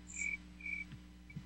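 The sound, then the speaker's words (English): Crickets chirp at night, a few short high-pitched chirps repeating at intervals, faint and thin over a steady low hum. “But I love the sound of the crickets at night.”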